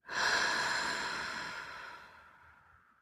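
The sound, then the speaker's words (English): A slow, deep breath during a guided breathing exercise: one long airy rush that starts firmly and gradually fades over about three seconds, with no talking. “Breathe in. And out.”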